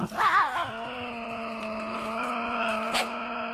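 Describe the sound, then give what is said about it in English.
A Tasmanian devil growls in a harmonic, whining tone that wavers at first, then holds one steady pitch for several seconds, continuous and moderately loud with no talk. “You know, that is the sound of the Tassie Devil.”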